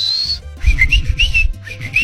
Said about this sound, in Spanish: Imagínate que nosotros nos comunicamos así con chiflidos y no. Estaría chido. Pues ya lo hicimos. Bueno, en el barrio así se comunican así,